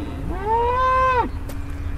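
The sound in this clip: A cow moos once on a pasture at a Danish wind turbine test site. The single low call is drawn out for about a second over a steady background hum.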